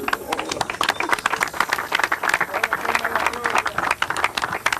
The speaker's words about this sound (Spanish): Un aplauso para el viejo Rafa.